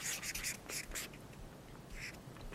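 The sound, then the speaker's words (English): A word being written by hand gives a few squeaky, scratchy strokes in short bursts, separated by brief pauses over a low, steady background. “And so I write out the word identity.”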